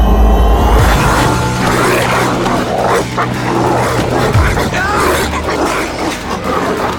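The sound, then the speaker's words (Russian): A pack of dogs barks and snarls as it attacks people. Overlapping growls, barks and yips form a dense, loud, continuous clamor from start to finish. “и собаки тут же кинулись на них”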